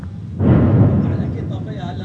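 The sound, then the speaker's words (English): A heavy blast from an Israeli airstrike near a village in Lebanon: a deep, sudden boom that swells and rolls on as a low rumble, with a voice talking as it fades. “As we enter the village, there are more Israeli airstrikes nearby.”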